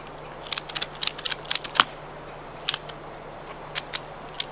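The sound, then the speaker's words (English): Sharp dry ratchet clicks as a trap is cranked closed, coming in quick irregular bursts: a dense cluster early on, then shorter groups of clicks separated by brief pauses. “So now I got it right there. So let me ratchet it closed.”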